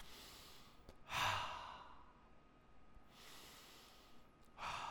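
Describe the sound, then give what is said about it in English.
Deep, slow breaths in a guided breathing exercise, in through the nose and out through the mouth. A few long, airy breath sounds rise and fade in turn over a quiet background, with no talking. “Let's do our deep breathing. Are you ready for this, folks?”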